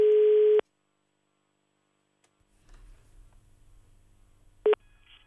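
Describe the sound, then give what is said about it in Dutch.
Telephone line tones ring out as a call is placed to residents of a neighbourhood in Rijswijk: a long steady beep first, then a low line rumble, then a brief second beep near the end. “Nou, laten we even bellen dan. Ja, we bellen even met de getroffen buurt in Rijswijk.”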